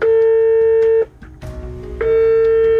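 Telephone line tone while calling an anti-corruption agency in Uzbekistan: a loud, steady, single-pitched tone cuts off, a pause of about a second follows, then the tone returns and holds to the end.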